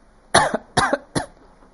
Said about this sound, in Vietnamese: ho khan ba tiếng, kịch liệt